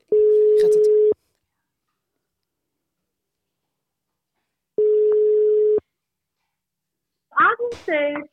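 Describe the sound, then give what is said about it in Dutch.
Telephone ringback tone heard while placing a call: two long, steady, level tones, each about a second, separated by a long silent pause. A voice starts speaking right at the end. “Hey, maar we gaan nu dus Agnes de Kuiper bellen.”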